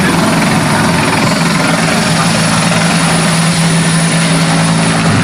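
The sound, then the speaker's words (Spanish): Aircraft engine and rotor drone from several aerial firefighting aircraft passing over a wildfire, a loud, steady roar with a constant low hum that holds unbroken for the whole stretch, with no talk over it. “es que están pasando, ¿no?, varios medios aéreos y por eso la comunicación a veces se ve entorpecida.”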